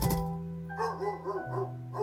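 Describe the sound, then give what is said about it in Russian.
Dogs barking, a retriever-like bark: a few short, rhythmic barks sound over sustained low musical tones, quick and moderately loud. “Вот здесь лай собак. Лай собак?”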